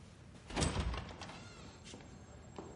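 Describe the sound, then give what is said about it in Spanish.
A door is shut in a house, one heavy, low thud near the start followed by a softer rattle and faint scattered knocks. “Ella se marcha y él cierra la puerta.”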